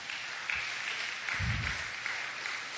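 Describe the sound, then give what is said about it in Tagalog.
A church audience claps in a brief, steady patter of many hands at moderate loudness, with no talk over it. “Palakpakan nga po natin ang Panginoon.”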